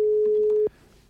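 A telephone ringing tone heard while placing a call: a single steady, mid-pitched beep held for about two-thirds of a second, then cut off abruptly, leaving faint line hiss.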